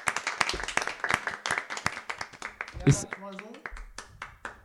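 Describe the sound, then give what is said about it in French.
Hosts clap together at the end of a beer-tasting recording session: many sharp, irregular claps packed close together, with voices talking over them. “On va pouvoir s'applaudir. Fin de session 16. Bravo, ouais. Bon, on peut s'applaudir.”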